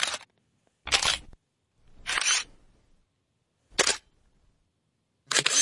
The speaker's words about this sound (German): Tja, da geht was auf, da geht was zu, da bewegt sich was und am Ende ist ein Film, den man dann zum Entwickeln bringt und dann kommen dann Fotos raus.